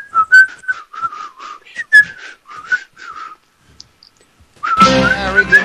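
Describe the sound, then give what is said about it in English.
A person whistles a tune on a live show, a string of wavering mid-high notes of varying length with brief gaps. A louder, denser sound takes over near the end. “we're almost to the part of where I start to whistle”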